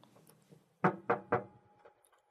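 Three knocks on a door land in a quick, evenly spaced row, crisp and moderately loud against an otherwise quiet background.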